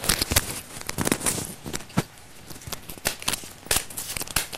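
Playing cards being shuffled: repeated crisp bursts of papery rustling and flicking, irregular in rhythm, with brief pauses between the louder riffles.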